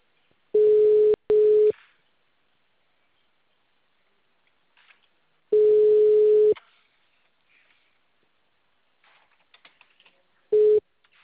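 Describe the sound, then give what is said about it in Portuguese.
Telephone ringing tone on an outgoing call: a steady mid-pitched tone sounds in a quick double burst, then after a long silence in one longer burst, and briefly again near the end, with faint clicks in the quiet gaps. “Tô ligando agora. Tá chamando.”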